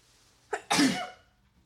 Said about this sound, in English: the sneeze finally came out. Oh my gosh, I've been trying to get that sneeze out this whole time.